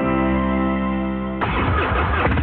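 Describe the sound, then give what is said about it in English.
A popular American motorcycle engine runs with a steady, humming low drone that abruptly turns into a rough, noisy, sputtering rumble partway through. “This is the sound of a popular American motorcycle. It's the sound of freedom, the open road, really good times.”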